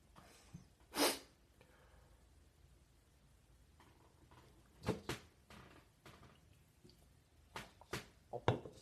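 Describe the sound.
A single sneeze from allergies, a loud sharp burst early on. Several quieter sharp, breathy noises follow later in otherwise faint surroundings.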